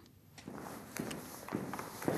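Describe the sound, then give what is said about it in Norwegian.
Quiet footsteps walk into the Munch hall of the National Museum in Oslo: several soft, evenly spaced steps that land alone without talk. “Nå går vi da inn i det aller helligste nemlig eh, Munch-salen.”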